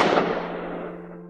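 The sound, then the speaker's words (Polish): A single gunshot from a weapon drawn from under a jacket and fired after turning around: one sharp, loud crack that fades over about a second into a long tail, over a faint, steady low hum. “wyjął broń, odwrócił się i strzelił.”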